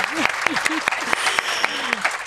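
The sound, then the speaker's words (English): An audience applauds in a dense, even patter of many claps with a few sharper claps standing out, and a voice speaks briefly over the applause. “So should we just give Nadine a round of applause?”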